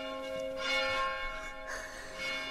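A church bell is struck very gently twice, and each soft strike leaves a sustained, humming metallic ring that slowly fades.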